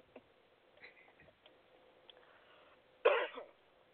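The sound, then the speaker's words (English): A single harsh cough from someone who has just choked, loud and abrupt near the end of an otherwise quiet stretch. “Excuse me, I got choked.”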